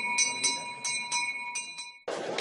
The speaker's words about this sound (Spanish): los niños carráncanos hacen sonar la campana para que la procesión del Corpus arranque en este soleado y caluroso día de San Fernando.